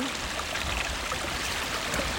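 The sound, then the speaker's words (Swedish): Spring meltwater runs in a small brook, a steady, even rush and trickle of water that holds constant throughout. “Det känns nästan som en liten vårbäck det här. Ja. Vårfloden är på gång.”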